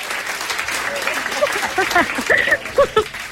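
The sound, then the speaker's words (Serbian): Recorded applause played during a radio show makes a steady, dense patter of clapping that runs throughout, with a person talking over it. “Daj mi aplauz, samo aplauz da čujem.”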